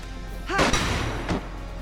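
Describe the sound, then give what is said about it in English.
A gunshot landing a headshot in the video game Valkyria Chronicles: one sharp, loud report, then a fainter second burst a moment later. “Hey, he got one shot. It's probably about a 80% shot. And there's a little good chance he won't hit the head. But let's give it a shot, see what happens.”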